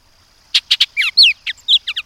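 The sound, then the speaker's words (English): A Bullock's oriole sings a quick, loud phrase of many high notes, alone and against silence. It mixes harsh buzzy bursts with brighter whistled slurs and ends in a few rapid short notes. “Bullock's orioles return north from Mexico in May to nest along many lowland streams east of the Cascades and here and there near Puget Sound.”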